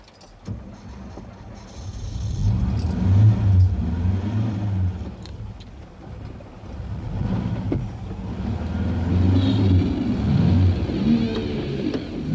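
A car starts at a red light and then pulls away on green, a steady low engine rumble that swells as it accelerates, with the loudest, fullest stretch toward the end.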